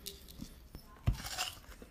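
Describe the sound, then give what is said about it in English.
Chewing on salted watermelon, with soft wet mouth sounds and one sharp, crisp crunch of a bite near the middle, all fairly quiet. “Some good ASMR. Mm. Yeah, I put too much salt on it. The only thing is. This watermelon is not sweet.”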